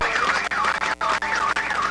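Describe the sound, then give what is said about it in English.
Sirens wail loudly and continuously during a night celebration as the last trapped miner is lifted to the surface, their pitch sweeping up and down in repeated cycles. “The sirens are going nuts.”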